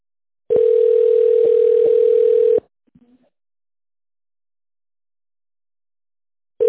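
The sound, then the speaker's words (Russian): A telephone line tone sounds while a call connects: a steady, mid-pitched tone lasts about two seconds, then stops, and after a few seconds of quiet broken by a faint blip, the tone starts again. “Подождите, идет соединение.”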